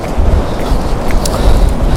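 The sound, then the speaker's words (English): Wind blowing outdoors and buffeting the microphone, a steady low rumble with rough gusty flutter that stays loud throughout. “Right, this wind is really... It is not as bad as the other day, but it's starting to give me a headache.”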